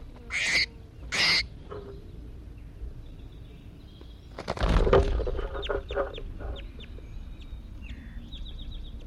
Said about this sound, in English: I think this is bird 81 calling here. Just released him.